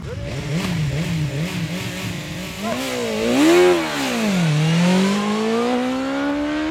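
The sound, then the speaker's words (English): An electric roadster prototype motorcycle accelerates in a drag race, its motor giving a loud, tonal whine that wavers, surges upward, dips, then climbs steadily again over a constant rushing background. “It's a shame I can't show you this, but I can tell you what's happening, and you can obviously hear it behind me. Basically, there's a series of drag races where this e-roadster prototype is being ridden by each of the journalists here.”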